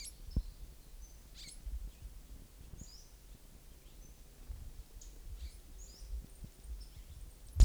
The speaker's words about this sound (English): Western flycatcher number one.